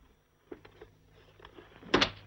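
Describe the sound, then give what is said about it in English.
Drawers of a dressing table being rummaged through, giving a few soft knocks and clatters before a louder clunk and scrape near the end, all fairly quiet with no voices. “Frida rummages through the drawers of a dressing table in Teresa's room.”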